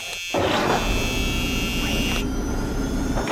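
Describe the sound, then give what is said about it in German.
An aircraft engine starting up as a pilot settles into the cockpit: a broad roar kicks in abruptly and holds steady, with a high, even whine above it that drops away partway through. “So, jetzt setze ich mich mal in meinen Pilotensessel, anschnallen und starten.”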